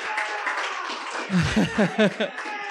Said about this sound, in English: Give it up for BJ Party, our opening act. That was wonderful.